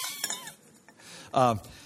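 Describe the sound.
A fragile ceramic vessel, already cracked and chipped, is handled and set down with a few faint, light clinks and knocks, followed by a brief voice.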